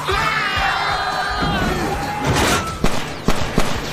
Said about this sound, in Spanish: ¡Está disparando!